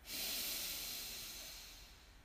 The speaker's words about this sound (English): Deep breath in and out. Deep breath in